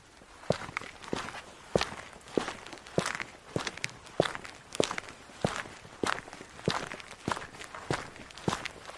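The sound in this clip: Boot-clad footsteps striking the ground in a steady walking rhythm, many sharp, evenly spaced heel thuds following one another with nothing else over them.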